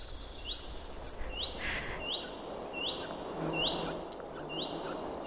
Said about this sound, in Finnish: Juha Haikolan äänitteen siitä, miten vaativalta se oikein kuulostaakaan, kun käenpoikainen kerjää leppälinnun pesässä.